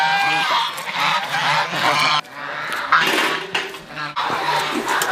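Geese kept on a farm where grass is grown to feed them honk loudly. Many harsh, nasal calls overlap in dense bursts, broken by a few brief pauses.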